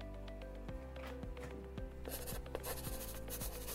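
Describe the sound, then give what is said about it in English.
Someone drawing a pair of socks by hand makes faint, scratchy strokes that repeat in a quick, steady rhythm, heard alone over a low background hum. “I'm drawing a pair of Feature socks for you right now.”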